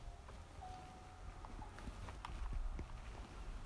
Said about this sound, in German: Ich laufe hier gerade zu diesem Minenschachtpfad.